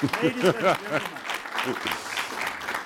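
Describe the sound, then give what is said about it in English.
An audience applauds a racing driver at a live motorsport talk event, with clapping running steadily beneath a man's voice that is loud at the start and then fades. “we need to applaud the gentleman here.”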